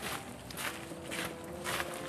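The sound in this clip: Faint footsteps walking up to the front of the house at Troldhaugen, a steady series of soft, regular steps.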